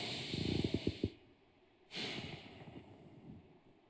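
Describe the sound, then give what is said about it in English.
A deep breath taken during a guided reflection: a soft, breathy rush with a few quick pulses, a short pause, then a longer, steady airy hiss that slowly fades. It is quiet and heard alone. “All right, big breath.”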